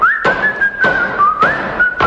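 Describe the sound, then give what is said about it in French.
Whistling over hammering while nails are driven into plywood: a steady, fairly high whistled note carries on unbroken as four evenly spaced hammer blows thud through it. “C'est un marteau. Ben, c'est un marteau siffleur.”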